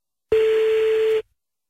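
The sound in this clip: A single steady telephone tone sounds while a call is being placed, one even, mid-pitched beep lasting just under a second and then stopping cleanly into silence.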